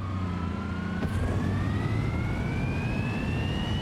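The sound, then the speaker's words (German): A car engine in a driving simulation game accelerates hard toward 300 km/h, its whine climbing steadily and smoothly in pitch over a constant rumbling, with no voices. “Okay, jetzt geben wir Gas.”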